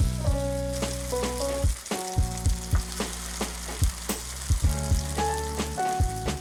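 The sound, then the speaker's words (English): Tofu steaks sear in a hot pan as a spatula presses down on them. A loud, constant sizzle and crackle runs throughout, broken by many sharper pops and scrapes. “Pushing down on the tofu steaks is what's gonna give them that beautiful crusty sear.”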